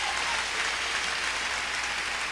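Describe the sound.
Applause for Jesus Christ during a church service: dense, steady clapping that fills the whole stretch without letting up.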